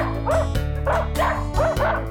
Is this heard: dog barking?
yes